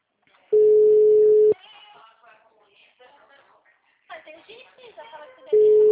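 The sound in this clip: Steady, even telephone tones from a call that fails to go through sound twice. One lasts about a second; another begins near the end. People talk in between.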